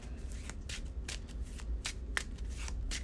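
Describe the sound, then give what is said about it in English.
A deck of cards being shuffled during a tabletop card game: a few quick, crisp papery riffle bursts follow one another in an uneven rhythm over a soft background, with no talking. “I am going to keep Storm of Spirits and shuffle the rest.”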